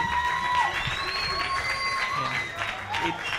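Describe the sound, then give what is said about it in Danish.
An audience applauds and cheers as a guest is welcomed onto the stage at a live show, the clapping steady and dense for the whole stretch, with brighter bursts of cheering rising through it. “Giv en stor hånd til Danmarks absolut flotteste fyr, LOC.”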